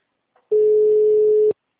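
An unanswered telephone call gives a single steady electronic tone, one even, mid-pitched beep held for about a second that stops abruptly.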